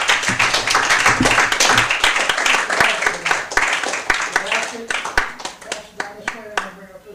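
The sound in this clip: Audience applause for a speaker at a prose and poetry reading: dense, loud clapping that gradually thins into scattered claps, with a voice beginning to talk near the end.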